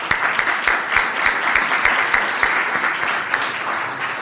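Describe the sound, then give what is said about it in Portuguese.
An audience applauds at an Ignite talk event in Porto, a fairly loud, dense patter of many hands clapping steadily for about four seconds. “e uma salva de palmas para eles”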